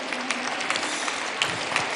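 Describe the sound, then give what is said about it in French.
Dense applause from a large crowd gathered in Saint Peter's Square after Palm Sunday Mass, a steady, bright wash of many hands clapping with faint scattered voices beneath. “François a fait une longue apparition sous les applaudissements en prenant le temps de traverser les allées en fauteuil roulant pour saluer la foule”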